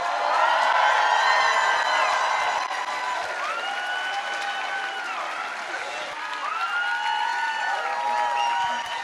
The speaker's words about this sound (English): So join me in giving Angela Y. Davis a warm Chicago welcome.